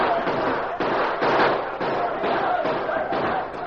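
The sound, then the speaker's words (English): Dense, loud gunfire volleys ring out as a small band at a post fires steadily into the night during a radio drama. Overlapping crackling shots run without a break for the whole stretch. “Open fire and keep firing. It's the only way we can stand them off.”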